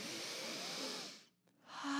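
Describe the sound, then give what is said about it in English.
A deep breath taken on a spiritual talk: a long, hissing rush of air that dips away briefly into near silence before another breathy surge rises again, heard alone without talk. “Let's take a deep breath.”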